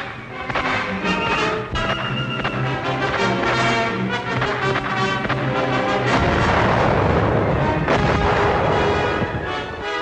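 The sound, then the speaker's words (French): Gunfire and explosions from rifles and grenades during a prison riot battle between inmates, guards and police in San Francisco, forming a loud, dense, unbroken barrage of overlapping cracks and booms throughout. “les mutins ont subi pendant près de 2 jours les attaques au fusil et à la grenade des gardiens et des policiers.”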